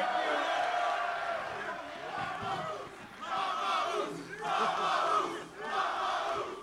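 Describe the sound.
Crowd cheering and yelling at a live show, a dense roar that swells and dips in several waves, with shouting voices mixed in throughout.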